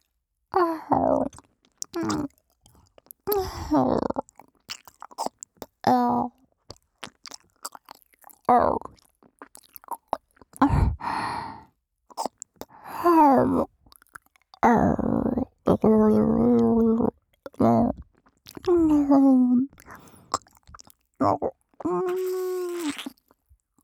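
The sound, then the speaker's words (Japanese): Wet, close chewing and biting mouth sounds imitating eating an ear, coming in many separate bursts with pauses, mixed with soft breathy sighs and moans. “お耳も食べてしまいましょう。”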